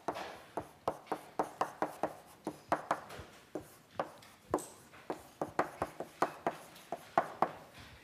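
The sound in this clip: Writing an equation on a board during a lecture on the second fundamental theorem: many short, sharp tapping and scraping strokes in an uneven rhythm, alone without talk.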